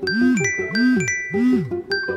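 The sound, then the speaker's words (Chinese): A mobile phone rings inside a jeans pocket, its bright electronic ringtone repeating a short arching melodic phrase three times with tinkling chime accents. “住持听见他口袋里手机在响，就自作主张的帮他接了，手机放在小金鱼牛仔裤口袋里。”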